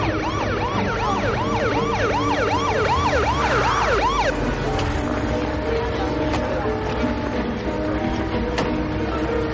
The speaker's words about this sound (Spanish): Cuando pasa junto al kiosco donde vio a Katy, varios coches de policía se detienen frente al mismo.